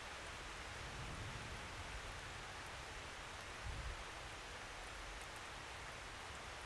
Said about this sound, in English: and we've arrived here on a beautiful late spring, early summer morning, and in came the rain.